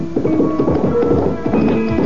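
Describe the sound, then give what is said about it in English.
A ridden horse's hooves clip-clop in a steady, even rhythm, with many quick hoofbeats following one another at a constant loudness. “saddling my horse, rode for the alchemist's isolated home.”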